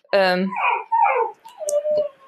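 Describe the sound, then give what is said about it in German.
A dog barking because it wants to go outside: one sharp, whiny bark, then softer yips and whimpers. “das ist der Hund, der möchte raus.”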